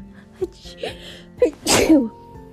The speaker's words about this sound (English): sorry, bless you, bless me, I'm sorry.